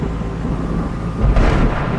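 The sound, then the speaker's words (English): A lightning strike and thunder break out beneath a wall of gray storm cloud over an outdoor maze. A low, rumbling background erupts into a sudden, louder thunderclap near the end. “Lee and Troy turn to face a wall of gray cloud when lightning strikes”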